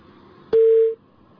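A telephone tone marks an incoming call on a radio phone-in line: a single loud, steady, mid-pitched beep lasting under half a second, alone.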